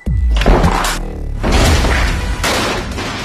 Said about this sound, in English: Flash grenade.